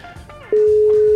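Telephone ringing tone on an unanswered call: faint background noise, then a loud, steady mid-pitched tone starts about halfway through and holds unbroken to the end.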